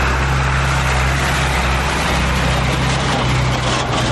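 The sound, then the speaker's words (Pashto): Traffic of trucks and cars on a dusty bypass road beside a shop in Kandahar city makes a continuous, dense roar. A heavy low rumble persists throughout with no distinct pass-bys. “محمود ازادي راډیو ته وویل چې پر دغه سړک هر ورځ سلګونه لوی او کوچني موټر تیریږي”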